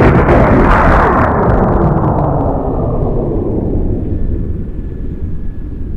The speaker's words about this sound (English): a brilliant light flashed above the trees, followed by the crump of an exploding rocket.